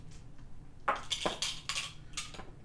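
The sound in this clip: Dice clatter onto a table during a tabletop role-playing game, a few quick, bright clicking knocks in an uneven burst, fairly faint and with no talk.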